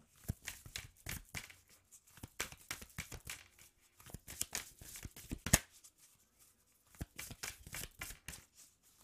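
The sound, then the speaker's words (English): Tarot cards are handled and a card is drawn from the deck, giving soft papery rustles and shuffling flicks in irregular bursts separated by brief pauses. “All right, let's get the last card.”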